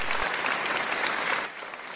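Brief applause from a studio audience welcoming a guest on a radio show, a dense patter of clapping hands that drops off and fades toward the end.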